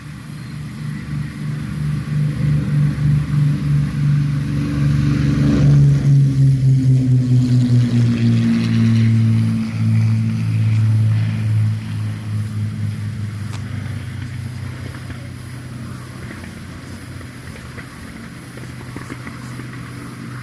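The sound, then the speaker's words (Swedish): Droning propeller engines of a Mosquito aircraft coming in to land, a loud, steady throbbing roar whose engine pitch drops noticeably midway before the sound gradually fades and thins out. “Kommer nu moskiten in för landning.”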